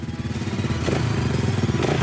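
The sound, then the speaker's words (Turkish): Dirt bike motorcycle engine running with a rough, aggressive low rumble, steady and sputtering, growing slightly louder partway through. “Oo, sesi oldukça hırçın geliyor. Evet. Oturuşunu sevdim. Tam arazi motoru hissi veriyor.”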